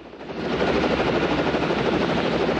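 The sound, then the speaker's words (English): A helicopter rotor whirs loudly over forested mountains, a dense, rapid chopping drone that swells in over the first moments and then holds steady and powerful throughout. “The spinning rotor mechanism whirs behind the white helmeted heads of the chopper pilot scanning from side to side in the cockpit.”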